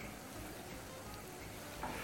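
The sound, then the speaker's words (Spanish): Pieces of dough fry in a pan, giving a faint, steady sizzle with a continuous soft hiss throughout. “Bueno, voy a freír estos cuatro y luego hago todos estos a la vez, que son muy, muy uniformes en su grosor.”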